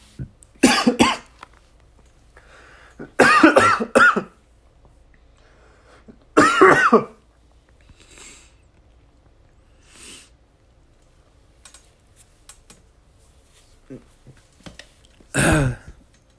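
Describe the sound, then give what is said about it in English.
Someone coughs and clears their throat after choking on something. A few loud, harsh coughing bursts are separated by quiet gaps, with faint throat noises in between. “Just choking on something there. Excuse me.”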